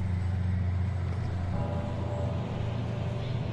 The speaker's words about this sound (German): Das Fahrzeug wird langsamer und hält an in der Nähe des Spielplatzes von Neukirchen.